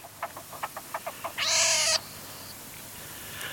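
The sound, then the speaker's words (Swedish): Young pine martens calling: a quick run of short, soft chirps, followed by a louder, harsh, sustained squeal and then faint, scattered squeaks. “då måste vi lyssna lite på hur det låter om mårdungar”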